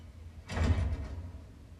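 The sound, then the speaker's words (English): A door swings shut with a short, muffled thump and rush of air about half a second long, then the sound settles back into a quiet background. “Close the door, please.”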